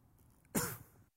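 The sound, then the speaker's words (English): One sharp, throaty cough from someone who has just choked on a cough drop, faint and alone against a quiet background. “I'm crying because I just choked on my cough drop.”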